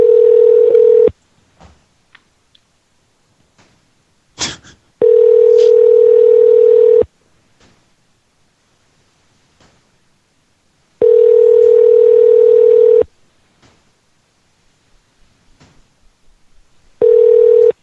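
A loud, steady telephone dial tone heard while calling back to reach voicemail, sounding in four separate stretches, with a quick burst of dialing tones between the first and second.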